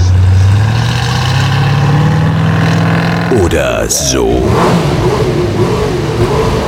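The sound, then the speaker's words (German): An Opel car engine, heard as the sound of the automobile of the future, gives a steady low drone that rises gently in pitch for about three seconds. A person then speaks briefly while a lighter sound carries on. “Wie wird das Automobil der Zukunft klingen?”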